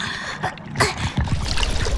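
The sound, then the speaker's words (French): Seawater pours and splashes into a shell as a fishing net is dipped into the sea. A sharp splash bursts early on, then a continuous gurgling, trickling rush follows to the end. “De l'eau! De l'eau rentre dans ma coquille! De la bonne eau de mer!”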